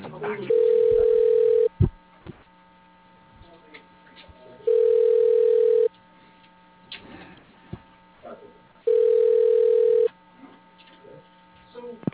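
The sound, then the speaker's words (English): Telephone ringback tone as a call is transferred: three steady, even rings of about a second each, a few seconds apart, with a low hum and faint noise between them. “For a list, your call is being transferred.”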